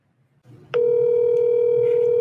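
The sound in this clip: Telephone dial tone while calling someone: a steady, unbroken electronic tone begins after a moment of faint low murmur and holds at an even, fairly loud level to the end.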